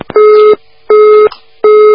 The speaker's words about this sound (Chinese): 哎呀，真可惜，打进电话跳线了。